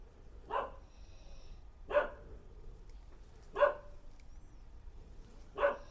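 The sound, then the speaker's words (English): One dog barks alone, four sharp barks spaced at slow, fairly regular intervals with quiet between them. “That's the sound of one dog barking.”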